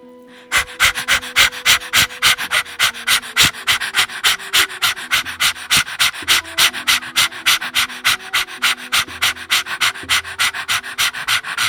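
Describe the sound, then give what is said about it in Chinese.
Breath-of-fire breathing exercise: many rapid, forceful, sharp exhalations in a steady fast rhythm, loud and even, over soft sustained tones underneath. “好，我们来进行几分钟的火呼吸练习。”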